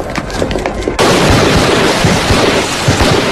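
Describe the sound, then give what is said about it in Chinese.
Rifle fire from a row of officer cadets shooting at a military academy firing range, heard as a dense crackle of many sharp shots over a rough, continuous roar that jumps louder after the first second. “在黄埔军校的靶场上，一排军官生持枪握姿射击， 至少有五发脱靶。”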